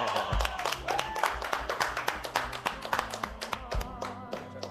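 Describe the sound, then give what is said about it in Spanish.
Audience applause from the stands, made of many sharp claps in a quick, fairly steady rhythm at moderate level, with faint tones running underneath. “La tribuna le recibe a los aplausos.”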